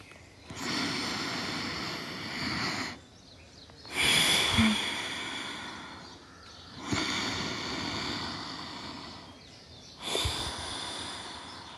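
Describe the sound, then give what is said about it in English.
Forceful Bhastrika pranayama breathing comes in four long, noisy, rushing breath bursts with short quiet pauses between them, steady and moderately loud with no talk. “We are doing Bhashrika Pranayama.”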